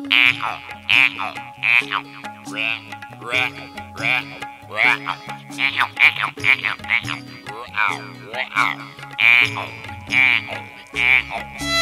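Frogs croak in a steady run of short, bright, repeated calls over a continuous musical backing with sustained low notes.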